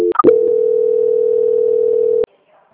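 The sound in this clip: A steady telephone tone plays while a call is being transferred. It begins after a few short clicks, holds one flat, loud pitch for about two seconds, then cuts off abruptly into silence.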